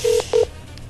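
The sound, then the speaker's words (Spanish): Two short telephone keypad dialing tones for a call to a Colombian radio show: steady mid-pitched beeps, the second slightly shorter, with a quiet gap between them and no talk. “Sí, pues márcale tú si te contestas. Sí, dale. Listo, ya le voy a marcar.”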